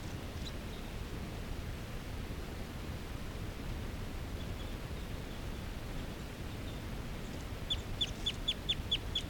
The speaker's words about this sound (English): There's a bird that's giving good song, and this bird's trying to push about 3 feet from the ground.